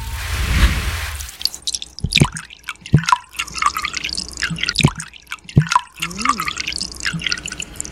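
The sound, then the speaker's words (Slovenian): Milk being poured splashes and drips in irregular wet spatters, with a low burst at the start and soft liquid sounds scattered throughout. “Mleko, vlivanje mleka. To vlivanje mleka.”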